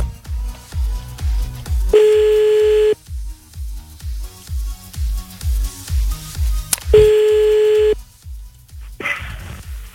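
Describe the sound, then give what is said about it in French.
Telephone tones sound as a call is placed: a fast, steady train of short low pulses runs throughout, broken twice by a loud, sustained electronic beep. No voices are heard. “Allez, c'est parti, on y va, on appelle le premier maintenant.”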